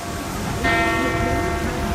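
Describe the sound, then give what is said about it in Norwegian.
Church bell ringing over rooftops, a single strike that swells in and hangs as a sustained ringing tone, heard through a constant wash of broad background noise. “Litt lenger borte så ringer kirkeklokken over hustaka.”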